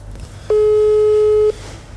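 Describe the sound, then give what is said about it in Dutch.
A telephone ringback tone sounds as an outgoing call is placed: one steady, mid-pitched beep lasting about a second, heard alone over faint background noise. “Maar we gaan eerst Pijn bellen.”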